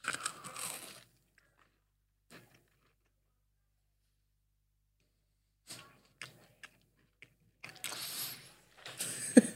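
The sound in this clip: Crunchy bites and chewing of a Reese's Pieces peanut butter cookie, faint and close: a crunch at the start, a long quiet gap, then a cluster of many crisp chewing crunches.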